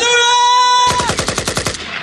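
Rapid automatic gunfire bursts out as many quick, evenly spaced loud shots. It follows a sustained buzzy synthetic tone that cuts off as the firing begins. No voices.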